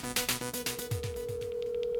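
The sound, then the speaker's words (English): A phone is dialed to place a call: a quick run of rhythmic tone pulses, then a steady continuous tone that holds to the end, with faint, regular high blips pulsing over it. “So here we go. I'm dialing him up right now.”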